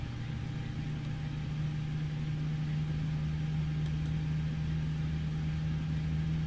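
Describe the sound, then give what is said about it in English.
Aircraft engine number two running during its start sequence: a faint, steady low drone with a constant hum, even in level from start to end. “Number two, starter engaged. Number two, 5% N2.”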